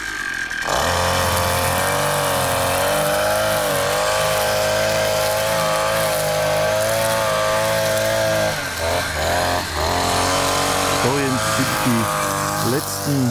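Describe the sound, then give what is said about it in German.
A petrol brushcutter cuts the last blades of grass with a loud, steady engine drone that runs almost the whole clip. Its pitch wavers slightly, and the tone shifts briefly near the end. “Motorsense.”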